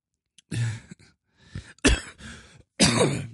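A person clears their throat, sounding phlegmy. Several rough, separate bursts of hacking and throat-clearing come one after another, with short silent gaps between them.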